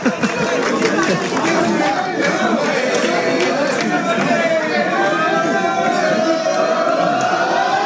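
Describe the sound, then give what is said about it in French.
FC Balagne football supporters cheer and acclaim the club president from the stands after a match. The crowd's voices make a loud, dense, continuous roar, with a sustained high tone running through it. “Et voilà, on entend les supporters du FC Balagne qui acclament aussi le président Navarro.”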